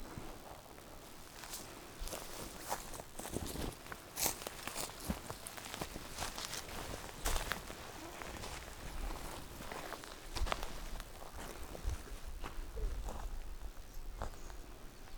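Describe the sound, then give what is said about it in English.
Footsteps cross a beaver dam in an untouched wetland, with many soft crunching and rustling steps in a steady, uneven rhythm throughout and no voices. “This is the beaver pond. And they made this dam here that we're about to walk on.”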